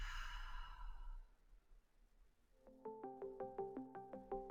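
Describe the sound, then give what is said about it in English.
A deep breath in through the nose and out through the mouth, soft and breathy, fading after about a second, followed by quiet, evenly pulsed melodic notes. “Take a deep breath in through the nose and out through the mouth.”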